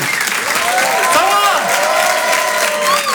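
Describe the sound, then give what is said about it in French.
Comedy festival audience applauding and cheering a comedian onto the stage, dense continuous clapping with whistles and shouts sliding up and down in pitch, voices mixed into the crowd noise. “Je vous demande de l'applaudir très fort pour cet Open du Rire.”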